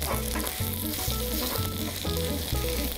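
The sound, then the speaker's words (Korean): Loud, continuous sizzle of food frying in an oiled pan as it is flipped and pressed down, the crackling hiss steady and dense throughout. “자, 이렇게 뒤집어 주세요. 네. 잘 뒤집어야 됩니다. 어우, 예, 됐습니다. 아, 괜찮아요. 됐어. 쭉쭉 누르고 익어야 되니까.”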